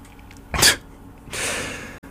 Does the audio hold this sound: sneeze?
yes